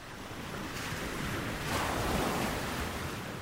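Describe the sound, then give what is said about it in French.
Sea waves of the tide wash in a continuous soft surf with wind noise, swelling gently midway and staying faint throughout. “Toutes les 6 heures environ, le niveau de la mer monte ou redescend. C'est la marée.”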